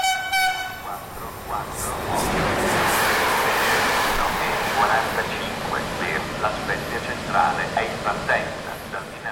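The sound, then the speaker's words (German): A train runs along the Cinque Terre coast between Framura and La Spezia, through many tunnels, with a steady, loud rumbling roar and a horn tone sounding at the start. “Mit dem Zug fahre ich im Sommer 2018 vom Dörfchen Framura durch viele Tunnel und entlang der spektakulären Küste der Cinque Terre in die Hafenstadt La Spezia.”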